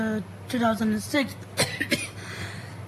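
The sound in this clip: Throat clearing from a person whose throat is tickled after eating chips: two sharp, rasping bursts close together, preceded by a short stretch of voiced, throaty vocal sound, over a low steady background hum.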